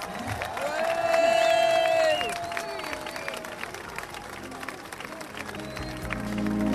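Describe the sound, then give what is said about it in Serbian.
Audience applause and crowd noise greet the guest of honour at a small village festival in Ravno Selo. Dense clapping swells and then settles, with sustained musical tones and some voices mixed in. “Dakle, molim vas da velikim, velikim aplauzom pozdravite naše lice u fokusu.”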